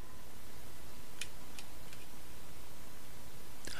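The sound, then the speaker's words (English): A button is clicked during a tabletop roleplaying game session. A few faint, sharp clicks stand out against a steady background hiss. “Clicking the button.”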